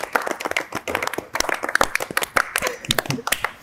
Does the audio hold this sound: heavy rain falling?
no